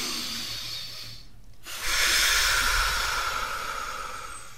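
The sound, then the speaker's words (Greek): A deep inhalation during a breathing exercise, an airy, breathy rush of air that swells louder partway through and holds steady to the end. “Πάμε να κάνουμε το «φου». Ναι. Έλα, εισπνοή.”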